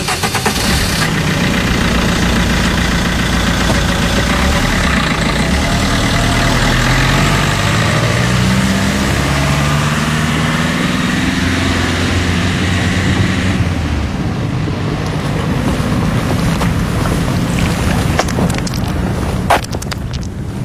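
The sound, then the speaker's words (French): Harbour ambience on the port quays of Marseille, dominated by a steady, loud idling boat engine rumble under a broad, constant wash of noise that lasts the whole stretch, with a few brief knocks near the end. “Là, on se trouve sur le port de Marseille.”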